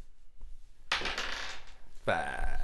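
A single die rolled during a tabletop roleplaying game makes a rattling clatter of about one second, followed by more sound to the end.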